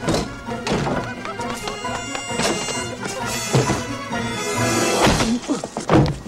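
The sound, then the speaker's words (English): A punch landing in a Back to the Future film scene as the young father decks Biff: a heavy, dull thunk set amid a loud, swelling musical score. “I can remember that shot of when Marty, wearing the leather jacket, is watching the young version of his dad punch out Biff”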